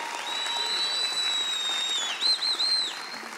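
Church audience applauding to welcome a family: a steady wash of clapping with a thin, high whistle running through it and a short warbling whistle near the end.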